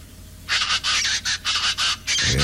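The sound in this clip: Plain chachalacas call in a raucous, scratchy chorus: about six loud harsh bursts in quick succession with short gaps between them, and no talk.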